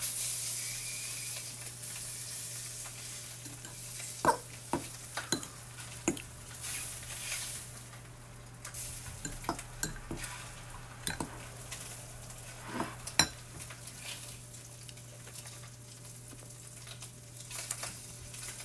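Food sizzling as it cooks in a pan, a steady frying hiss scattered with many sharp clicks and taps from tongs and utensils, with no talk.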